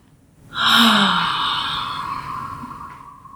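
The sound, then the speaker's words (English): A single long, deep breath comes in one smooth, sighing stream that starts suddenly, then slowly fades away over a few seconds. “it feels good just right now, just on that topic of being, for me to stop and take some deep breaths.”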